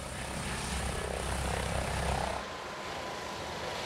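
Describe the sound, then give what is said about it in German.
An ADAC rescue helicopter flying, a faint but steady broad engine and rotor roar with low throbbing that drops away after about two and a half seconds, leaving a thinner, even drone. “Der ADAC-Hubschrauber Christopher 26 ist in Sande bei Wilhelmshaven stationiert. Er fliegt oft Rettungseinsätze auf den ostfriesischen Inseln.”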